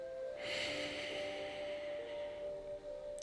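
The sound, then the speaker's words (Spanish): A deep breath drawn in and let out, heard as one long airy rush of breath over a steady low tonal hum. “Solo date cuenta, solo acéptalo solo vívelo. Inhala y exhala profundamente.”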